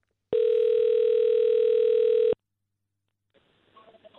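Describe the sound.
A telephone call to an ambassador ringing out: one steady, even electronic tone lasting about two seconds, followed by silence and then faint, scattered noise.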